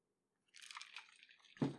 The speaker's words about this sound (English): Just having a little sip, just relaxing my throat a little bit before this last big piece.